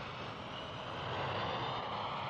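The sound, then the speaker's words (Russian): Steady, loud roar of an airplane's engine as it makes its takeoff run down a runway, a dense continuous rumble holding at an even level throughout with no break. “По полосе начинает разбег самолет. Смотрите, ну вот же взлетает самолет.”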